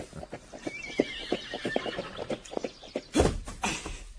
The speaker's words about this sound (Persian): می‌بینم که عاقبت این اسب سرکش رام برادرم شد.